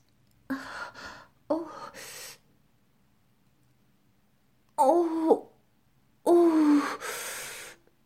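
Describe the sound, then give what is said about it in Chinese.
Sharp, voiced gasping inhalations come in a few short bursts separated by silence, some doubled and breathy with a wavering tone. “吸气，吸吸吸，呼吸”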